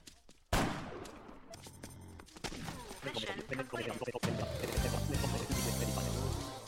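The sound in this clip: Sniper rifle gunfire in a video game: a few sharp, loud cracks with noisy tails, standing out from a dense, layered mix of other game sounds.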